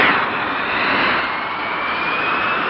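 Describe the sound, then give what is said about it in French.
A Mirage IIIC jet roars past during a test flight at Istres on a women's closed-circuit speed record attempt: a loud, steady, broad engine roar with a high whine running through it, no voices. “Dans ce Mirage 3C, le pilote d'essai Jacqueline Auriol, guidé du sol par l'ingénieur Durand, tente de battre le record féminin de vitesse en circuit fermé.”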